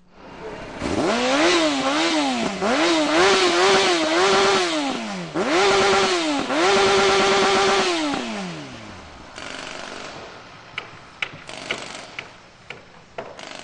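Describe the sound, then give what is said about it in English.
Sport motorcycles, known as crotch rockets, roar at Calhoun Parkway and Xerxes Avenue South. A loud engine climbs in pitch, drops and climbs again several times as it revs through gears, then fades into quieter traffic noise with a few sharp clicks. “It's where people on these kind of newfangled motorcycles that some people call crotch rockets,”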